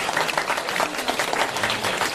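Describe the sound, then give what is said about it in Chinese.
Dense audience applause fills the whole stretch, a steady wash of many hands clapping at an even loudness with no voices standing out. “鼓掌。”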